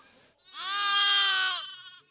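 A bottle-fed lamb gives a single loud, wavering bleat that swells and then fades over about a second and a half, heard on its own.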